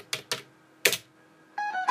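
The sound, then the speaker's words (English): Three sharp clicks as the right arrow key on a computer keyboard is pressed, the last one loudest, followed by a short buzzy harmonic tone at the end. “We're going to press the right arrow key a couple of times.”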